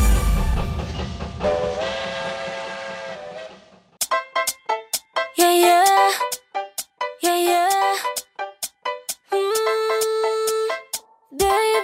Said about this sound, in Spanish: El tren. El tren sigue su marcha.